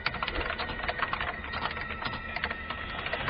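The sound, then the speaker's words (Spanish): Rapid typing on a computer keyboard at night, a dense, steady stream of small clicks with no pauses, heard alone against a quiet background. “Solo el teclear en un ordenador se escucha en el silencio de la noche.”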